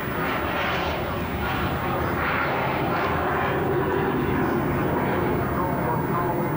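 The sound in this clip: Steady roar of an aerobatic solo jet making a fast roll as it passes low along the runway axis at an air display with a nine-aircraft formation team. The broad engine rush stays loud and even, swelling slightly midway.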